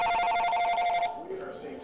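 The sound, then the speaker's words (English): A telephone rings in a kitchen, a bright, steady electronic ring that stops abruptly, followed by a voice speaking. “I was sitting in the kitchen, and I was reading a book, and the phone rang.”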